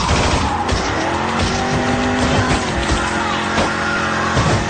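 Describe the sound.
A coupé speeds along with a loud, sustained engine roar and a rising tire squeal as it skids across asphalt, the whole passage dense and unbroken.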